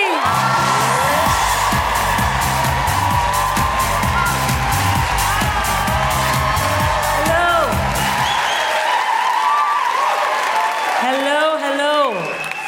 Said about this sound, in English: Put your hands together and make incredible woo-hooing, welcoming noises for the wonderful Sindhu V.